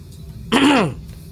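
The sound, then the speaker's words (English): A man loudly clears his throat once: a single harsh, rasping burst under half a second long, with quiet before and after. “Security Chief Tovar clears his throat loudly and stares daggers at you”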